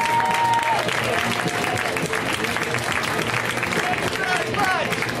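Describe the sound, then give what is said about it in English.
A comedy show audience applauds a comedian being brought on stage, with dense, steady clapping throughout and a voice talking over it. “Let's hear right now from Mr. Ron Babcock. Guys, give it up for Ron.”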